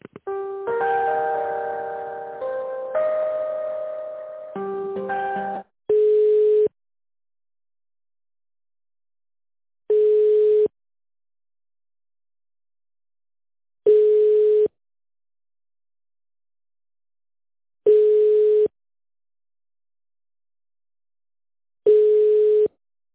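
Telephone line tones during a call transfer: a short run of stepped electronic tones, then five identical ringback beeps repeating at steady intervals with silence between them.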